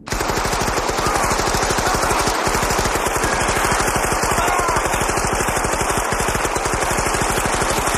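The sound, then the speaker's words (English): Machine-gun fire from a film scene fills the stretch, a rapid, evenly spaced stream of many loud shots running unbroken from start to finish. “This is the unbelievable amount of bullets hits this guy.”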